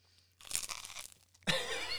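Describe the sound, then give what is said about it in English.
Crisp crunching as someone bites into an English muffin, a first crackly bite followed by a second, louder burst of crunch. “He bit the English muffin.”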